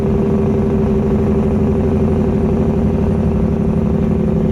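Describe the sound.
Deep, loud engine rumble from a big truck runs steadily through the whole stretch, with a dense low drone and rough clattering texture and no voices.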